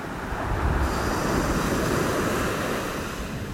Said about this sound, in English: Just breathe with the sound of the waters coming in and out.